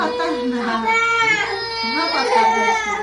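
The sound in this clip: A three-year-old Syrian refugee girl cries and begs for food in a two-bedroom apartment shared by eight refugees. Her loud, continuous wailing wavers up and down in pitch, with sobbing, word-like pleas mixed into the crying.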